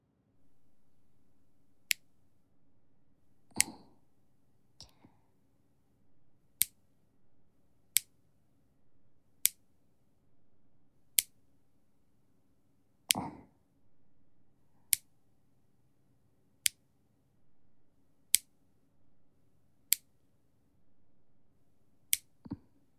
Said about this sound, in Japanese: じゃあ爪切りますね。